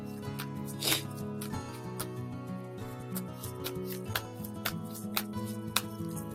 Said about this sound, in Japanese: 最後にハワイのマナカードを、えー、皆さんの今日一日にどんなメッセージかっていうのを引いてみたいと思います。